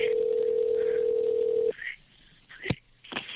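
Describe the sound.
A steady telephone line tone opens a recorded emergency call, holding for about 1.7 seconds before cutting off, followed by faint line noise and a few brief clicks.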